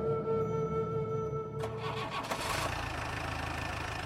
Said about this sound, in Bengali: গর্জন করে লাল কালো জিপটা ছুটে চলল পাহাড়ি রাস্তা দিয়ে